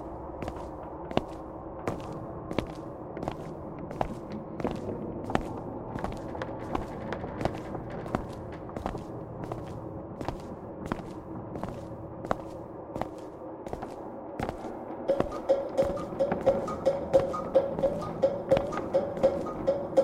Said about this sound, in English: It's like a, a light thudding sound. Our footsteps? No, no, no. It was like a third set of steps.